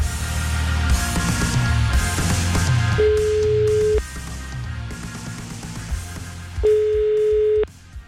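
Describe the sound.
Italian telephone ringback tone during a radio call-in: two steady, single-pitch tones about a second long with a pause between, heard over continuous background music.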